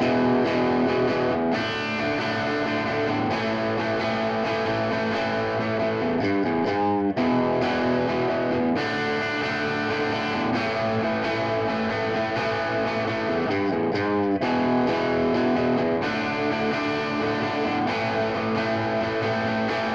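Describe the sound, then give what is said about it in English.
A distorted electric guitar plays through the bright input of a Sunn amplifier, with a gritty, treble-heavy and noisy tone. Sustained chords ring loud and steady throughout, broken by a couple of brief rhythmic stops. “For example, here's what the bright input on one of those amplifiers would sound like.”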